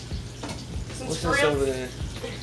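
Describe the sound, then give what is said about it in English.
Chicken sizzles while frying in a pan with a steady, bright hiss of hot oil, and a voice speaks briefly over it. “So baby over here sizzling up some chicken.”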